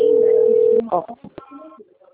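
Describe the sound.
An incoming phone call about a payroll loan: a steady mid-pitched telephone tone holds for under a second, then cuts off and is followed by a brief stretch of voice.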